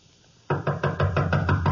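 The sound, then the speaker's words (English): Knuckles rap on a door in a quick, even run of eight loud knocks that start abruptly after a brief quiet moment. “Just knock on the door and go in.”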